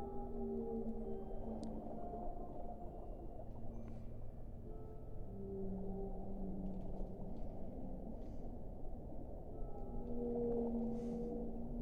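Whale song: many long, tonal moans and wavering calls rise and fall over a faint, steady low rumble, drifting on continuously at a quiet level.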